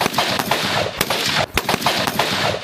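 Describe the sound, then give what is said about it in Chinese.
Gunfire from a live-fire shooting assessment by armed police troops: many sharp, loud shots in an irregular sequence, some spaced apart and some in quick pairs, each a hard crack over a steady background noise, with no voices. “武警陕西总队西安支队组织实弹射击考核，官兵要在规定时间内自主完成目标判断、运动射击。”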